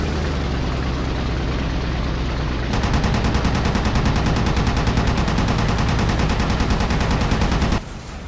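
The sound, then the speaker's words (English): An aircraft machine gun strafes a cargo ship in the video game Battlestations: Midway. A droning engine is heard first, then a loud, sustained rapid-fire burst lasts about five seconds before the engine drone returns alone. “Okay, cadet, strafe that cargo ship until she goes down.”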